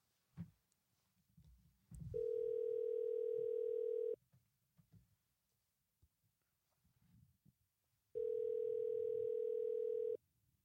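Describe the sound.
A telephone line tone sounds while someone places a call. Two long, steady, even tones of about two seconds each are separated by a pause filled with faint rustling.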